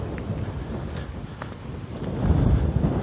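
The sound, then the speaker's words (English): Strong northeast wind gusting along an outdoor street, a steady broad rushing roar that swells louder toward the end, with faint clicking mixed in. “Wind's coming out of the, northeast. It's blowing pretty good, too.”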